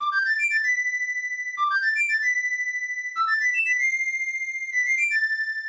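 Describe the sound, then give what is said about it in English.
A video-game flute melody plays four short phrases in a row. Each phrase steps upward through quick notes and settles on a long held tone, sounding clear, thin and tuneful with no other sound. “That was the flute from The Legend of Zelda, A Link to the Past, which is my favorite game as a kid.”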